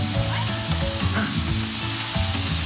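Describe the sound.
Burgers sizzling on a hot grill just after the first flip: a steady, loud crackling hiss that runs without pause, with no talk.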